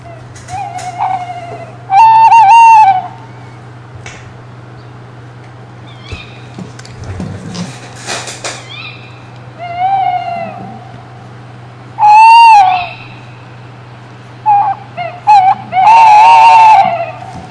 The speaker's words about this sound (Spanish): es una ave que todo el mundo habrá pensado rápidamente desde el principio que es una ave nocturna. Entonces la gente al decir una rapaz nocturna